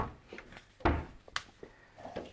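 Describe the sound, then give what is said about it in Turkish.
Clattering knocks as a food processor is pulled out of a kitchen cupboard: several light bumps and scrapes around one heavier thump near the middle, all fairly quiet. “Şöyle hemen bir saniye, hemen şuradan robotumu da çıkarıyorum.”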